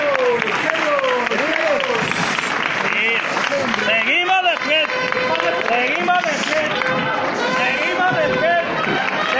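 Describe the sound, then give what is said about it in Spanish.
Applause from a Holy Thursday procession crowd in Jaén greets the float of the Santísimo Cristo de la Veracruz near San Ildefonso, a dense continuous clatter of clapping mixed with crowd voices and chatter. “Un aplauso un poco antes de tiempo.”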